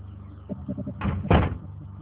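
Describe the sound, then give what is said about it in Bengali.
A door is shut: a few soft, low knocks, then a louder thudding bang that quickly fades. “এ কি দরজা বন্ধ করলা কে?”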